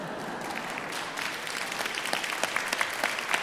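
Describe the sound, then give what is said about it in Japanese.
Audience applause at a sing-along concert event, dense clapping from many hands that holds steady and grows a little sharper and more uneven toward the end. “ここで拍手が来るって書いてありますが”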